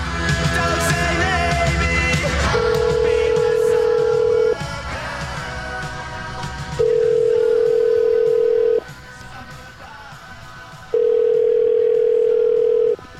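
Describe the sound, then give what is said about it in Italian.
Telephone tones sound as a call is placed to a hotel. After a short noisy start come three loud, steady beeps of about two seconds each, with pauses between them. “Io proverei a chiamare questi signori dell'albergo.”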